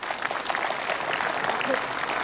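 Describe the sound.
An audience applauds at a crosstalk comedy performance with a steady, dense wash of clapping, while a voice speaks over it.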